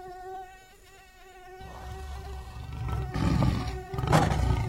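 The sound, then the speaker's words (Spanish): A mosquito buzzes around a lion resting in the shade of a leafy tree. The thin, high whine wavers throughout, while deep rumbling growls swell beneath it and grow louder toward the end. “cuando un mosquito pasó zumbando a su alrededor”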